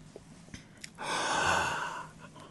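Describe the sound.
A single deep breath is drawn in, a soft airy rush lasting about a second. A few faint clicks come before it, and it stays fairly quiet throughout.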